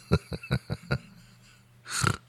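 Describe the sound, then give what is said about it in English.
A laugh breaks into a snort: five quick, punchy laugh pulses, a short pause, then a single harsh, noisy nasal snort. “I snorted. Oh, my God. Oh, my God, I snorted.”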